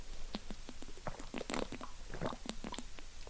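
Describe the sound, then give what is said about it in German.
A person taking a sip of a drink: a run of quiet, wet clicks and small gulps at an uneven pace, soft throughout with no talking. “Ich muss kurz einen Schluck trinken.”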